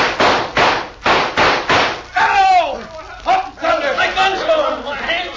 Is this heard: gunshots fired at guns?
yes

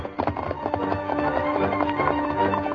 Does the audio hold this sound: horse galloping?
yes

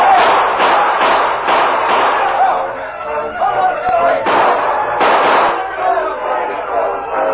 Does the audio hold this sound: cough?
no

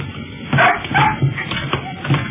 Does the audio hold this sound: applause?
no

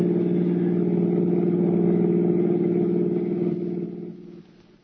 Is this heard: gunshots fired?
no

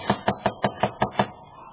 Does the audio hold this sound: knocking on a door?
yes

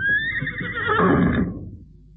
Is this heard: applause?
no

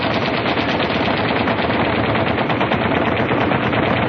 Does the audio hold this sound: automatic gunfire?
yes

